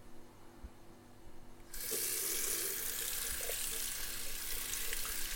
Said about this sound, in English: Hold on, let me wash my hands so I don't get this anywhere else on you.